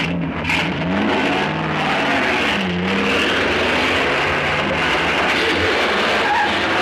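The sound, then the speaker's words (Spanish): A car engine roaring as the vehicle accelerates away in pursuit, a loud and steady motor drone that holds through the whole stretch. “monta en su coche y le persigue”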